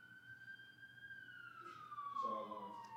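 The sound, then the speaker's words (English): Faint police siren wailing outside in a neighborhood, a steady tone that holds, then slides lower in pitch toward the end, with light background rumble. “this is like a bird call in our hood, bro. I love it. You know what time it is when the sirens are going.”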